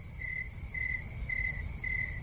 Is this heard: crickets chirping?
yes